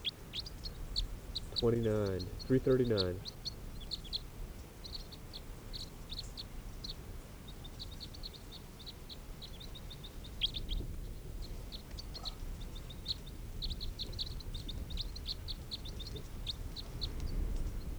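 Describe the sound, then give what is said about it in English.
Birdsong with many short, high chirps repeats faintly and steadily over a low, noisy background. A brief voice is heard near the start. “This is bird”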